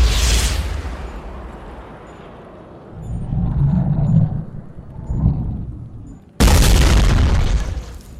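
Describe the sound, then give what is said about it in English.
Explosions as a monster is blown up in a Resident Evil video game: a loud booming blast at the start, a low rumbling stretch after it, and then a second heavy burst that sustains before tailing off. “it appears blowing up that monster has left a crack in that glass chamber that currently houses the mutant parasite.”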